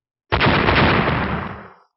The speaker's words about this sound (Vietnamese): Một tiếng nổ cực lớn hoàn toàn chấn động thiên địa vang lên